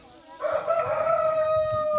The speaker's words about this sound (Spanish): ¡Ay, ya los vino a despertar el gallo! ¡Quiriquía!